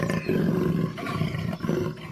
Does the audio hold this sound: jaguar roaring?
yes